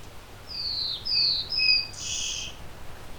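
A bird sings high, thin chirping notes while hunting insects in flight. Four short, bright calls come in quick succession, each rising in loudness, over a faint, steady background hiss.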